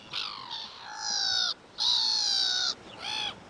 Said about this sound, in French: un autre oiseau qui, contrairement à ce qu'on pourrait penser, n'est pas marin, lui, la mouette rieuse. On la rencontre aussi pas mal par ici. Mouette, c'est à vous.